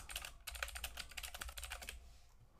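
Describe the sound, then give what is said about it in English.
Typing on a computer keyboard: a dense, steady run of many quick key clicks that goes on without pause and thins out toward the end, with no voices over it. “I know you hear typing”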